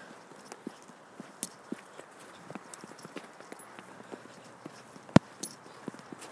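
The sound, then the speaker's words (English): Footsteps crunching on a snowy footpath, a steady walking rhythm of many short, dry crunches over a soft hiss, with one sharper, louder step near the end. “We've got snow, lots of it. I don't know how deep it is. Don't feel all that deep, but I am walking on footpath”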